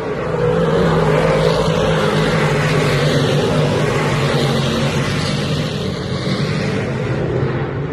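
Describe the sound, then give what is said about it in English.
Dirt track speed racing cars roar, a loud, continuous engine drone with a steady low hum that holds without pause throughout, no voices. “Yep, that's right. Racing is back all across the country. That is dirt track speed racing. Seven different classes, and our boys insisted on being right up in front.”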